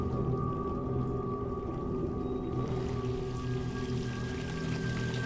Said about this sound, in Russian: Таперт закручивает кран.